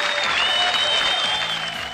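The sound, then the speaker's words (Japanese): A brief burst of audience applause, steady rapid clapping at an even, fairly loud level that thins slightly toward the end. “拍手が早いねえまだ発表してませんよ。”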